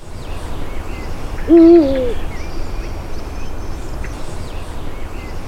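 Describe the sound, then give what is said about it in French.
A single deep hoot of an eagle owl, short and loud above steady background noise, with faint higher chirps of other birds scattered around it. “Donc, le fameux hibou grand-duc. Donc... je pense que tout le monde a déjà entendu ça”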